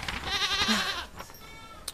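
A goat gives a single long, quavering bleat lasting about a second, followed by fainter noises and a brief click.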